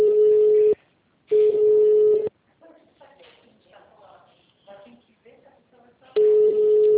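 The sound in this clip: Ringback tone of an outgoing telephone call: three long, steady buzzing rings separated by pauses, with faint talk in the gap between the second and third rings.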